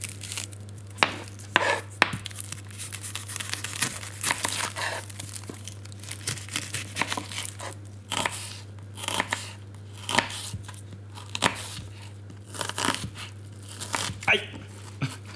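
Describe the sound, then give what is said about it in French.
A packet of basmati rice and an onion being handled, with many irregular crinkles, rustles and soft taps of varying loudness over a steady low hum. “Ça, c'est un paquet de riz basmati. Un hein, oignon.”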